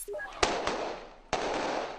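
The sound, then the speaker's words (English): Gunshots as Haitian police chase away scavengers in quake-hit Port-au-Prince: three sharp cracks at irregular intervals over steady background noise. “That's the sound of Haitian police chasing away scavengers.”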